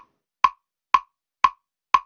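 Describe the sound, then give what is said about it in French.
A metronome accompanying a dance piece ticks four times with crisp, dry clicks spaced evenly about half a second apart, each one short and alone against silence. “Voilà, donc là, ce qu'on entend, c'est le bruit du métronome.”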